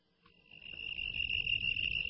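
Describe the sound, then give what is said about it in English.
Fast cricket chirping, a sound effect: a steady, high-pitched rapid trill that runs throughout over a low rumbling background, which grows louder after the first half-second. “That's like a cricket on steroids or something. I have many cricket options.”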